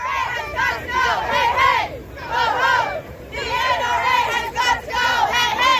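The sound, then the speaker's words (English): Demonstrators chant loudly in unison at a March for Our Lives anti-gun rally in Washington, D.C. Many voices repeat the same shouted phrase in a steady rhythm, with brief pauses between rounds and a crowd murmur underneath. “That's the sound of demonstrators in D.C. during last Saturday's nationwide anti-gun rallies organized by the group March for Our Lives.”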